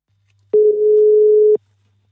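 Telephone ringing tone heard while placing a call: a single steady, mid-pitched ring burst lasting about a second, then silence, with only a faint low hum underneath.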